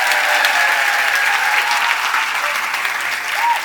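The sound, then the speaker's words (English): Audience applause welcoming comedian Eddie Izzard, dense and loud clapping that carries on steadily without a break throughout. “Ladies and gentlemen, please give it up and welcome the magnificent Mr. Eddie Izzard.”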